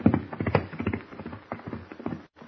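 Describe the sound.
Horses' hooves clip-clopping as riders set off on horseback: many quick, uneven hoof beats in a steady rolling rhythm, moderately loud, with a brief gap near the end.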